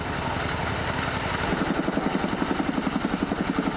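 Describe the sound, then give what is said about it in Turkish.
Heavy rotor beat of a CH-47 Chinook helicopter fighting a wildfire: a steady, loud rumbling drone, with rhythmic thudding pulses emerging after about a second and continuing evenly. “bir kerede 10 tona kadar su atabilen CH-47 Chinook tipi helikopter de yangın söndürmek için desteğe geldi.”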